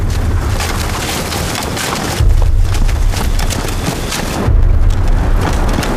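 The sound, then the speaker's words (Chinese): Landmine explosions go off behind a squad that has just left a minefield: two heavy booming bursts, each followed by a loud, sustained rumbling roar. “刚才后面是不是地雷炸了？”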